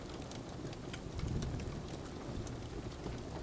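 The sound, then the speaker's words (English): Raindrops falling on a window: an even hiss of rain with scattered sharp drop taps. A low, soft rumble swells briefly near the middle. “and the raindrops on the window.”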